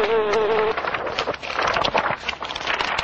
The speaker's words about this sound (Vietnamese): Ong sợ cuống cuồng, cất cánh toàn bay, nhưng không sao gỡ chân ra được, làm kêu lên những tiếng ồ ồ như người đọc sách.